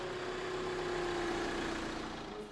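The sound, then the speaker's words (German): Steady engine rumble from bakery delivery vans as they head out to the surrounding markets at 6:30 in the morning. A continuous, fairly loud drone with a faint hum, and no talk. “Pünktlich um 6:30 fahren die Bäckermobile auf die umliegenden Märkte.”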